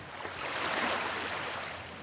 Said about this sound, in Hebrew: צלילים של מים, מים נקיים,